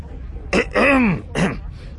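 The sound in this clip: A man clears his throat in two raspy, guttural bursts: a longer one followed by a shorter one after a brief pause, loud and alone.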